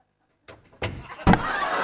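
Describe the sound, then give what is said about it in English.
A door shuts and a toilet lid drops in a sitcom bathroom scene: a few sharp thuds and bangs, the loudest coming last, followed by a lingering noisy wash. “As he shuts the door, the toilet lid drops onto Alan's head.”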